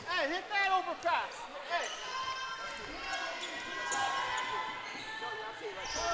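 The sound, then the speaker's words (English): A loose ball bouncing on a volleyball court, repeated dull bounces under a commentator's voice. “Uh-oh, and a loose ball on the court. And so we'll have a redo at a 12-2”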